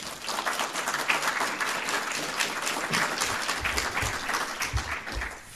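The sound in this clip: An audience applauds to welcome a history professor before an evening lecture. Dense, even clapping from a crowd continues steadily, with a few louder individual claps standing out.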